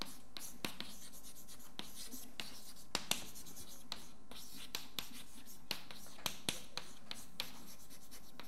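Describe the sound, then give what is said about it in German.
A hand writes out a quantum-mechanics equation about a wave function. Soft, scratchy strokes follow one another in a steady stream, broken by occasional faint taps as the writing tool meets the surface. “Das hört sich kompliziert an und deswegen schreibe ich es jetzt erstmal auf.”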